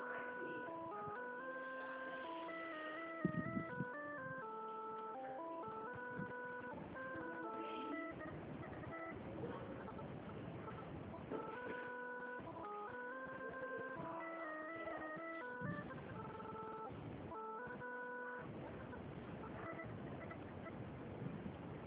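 Telephone hold music plays while a call is being transferred, a steady electronic melody of repeating tonal notes sounding thin and narrow over the phone line.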